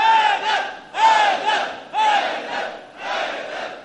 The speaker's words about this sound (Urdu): نعرہ حیدری.